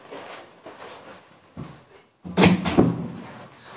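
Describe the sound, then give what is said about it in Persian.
A door is closed, giving a brief rattle and then a louder dull thud and scrape after a quieter stretch of low murmuring noise. “ببخشید من یه لحظه در رو بستم.”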